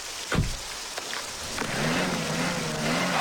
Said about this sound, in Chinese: 又陷进去了，这下怎么办？哎， 我忘了提醒你了，春天这到处都是高山融水，车辆进去特别容易打滑。我下去推车，你再试试。